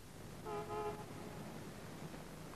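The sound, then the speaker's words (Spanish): A car horn honks outside, a single brief toot of about half a second, faint over a steady background hiss. “Fuera suena un claxon.”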